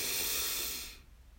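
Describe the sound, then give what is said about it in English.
A single deep breath drawn in, a soft, airy hiss lasting about a second before it fades to near silence. The breath is taken during a guided relaxation exercise. “Let's take a deep breath in together. Breathe in”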